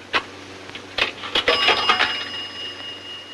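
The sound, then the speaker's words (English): A coin drops into the slot of a pay phone in a phone booth, making a few sharp metallic clicks and clinks. A faint, thin ringing tone follows, lingers and slowly fades. “Later, at a phone booth, the old man puts a coin in a slot.”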